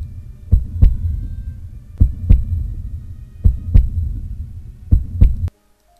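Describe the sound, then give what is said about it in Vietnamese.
A pounding heartbeat thumps in four evenly spaced lub-dub pairs over a low hum. The deep, loud beats stop abruptly at the end. “tim tôi đập thình thịch như muốn rớt ra ngoài”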